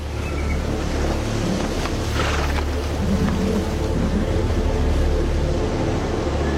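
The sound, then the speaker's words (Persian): Strong sea waves surge around a ship in a dense, continuous roar of rushing water. A low rumble and some wind noise sit underneath. The sound stays loud and steady, with no voices. “موج داره شدید میشه. دیگه بهت هشدار نمیدم. کشتی اونجا.”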